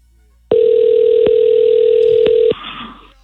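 A loud, steady telephone tone plays while a call is placed: a single unbroken tone lasting about two seconds, then stopping abruptly, followed by low faint noise.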